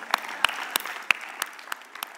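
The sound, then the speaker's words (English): Audience hand clapping, a steady rhythm of about seven sharp claps spaced evenly apart, fairly faint over a low, continuous background hush. “Can we give Jesus a hand clap?”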